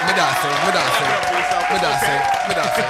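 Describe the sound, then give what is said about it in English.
Audience clapping welcomes a guest, a steady patter of applause running throughout, with voices talking over it. “Let's clap it up for yes, sir.”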